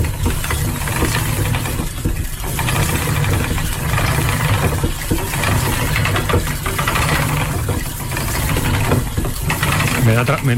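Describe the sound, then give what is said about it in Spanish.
A spinning wheel like the one in Velázquez's painting Las Hilanderas turns with a loud, continuous mechanical whirring and clatter, swelling and easing in a regular cycle about every two seconds. “esta pintura de Velázquez, en las hilanderas, la rueca está trabajando, está sonando y tiene un sonido que sonaría así.”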